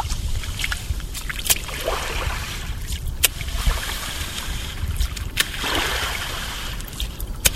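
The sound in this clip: A wooden rake stirring salt in a salt pan, swishing and scraping through the wet salt in repeated strokes, with watery splashes and trickles running throughout.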